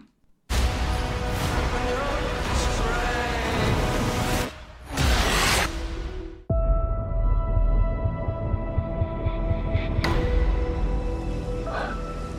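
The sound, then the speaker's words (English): Opening of the Morbius movie trailer: loud cinematic sound design with deep rumbling booms and whooshing swells, a sudden cut, then a sustained droning tone punctuated by sharper hits. “let's check out the trailer for Morbius.”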